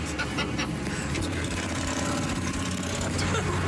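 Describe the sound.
A motorcycle engine runs with a low, steady rumble and droning tone, while men talk over it.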